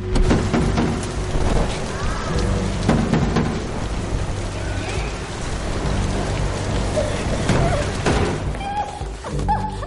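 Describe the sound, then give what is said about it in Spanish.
Heavy rain pouring down on a dark night, a dense, steady hiss of drops on surfaces that holds at an even loudness for the whole stretch, with no one talking. “Bajo la lluvia intensa.”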